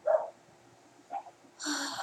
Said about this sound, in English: Please excuse the dogs.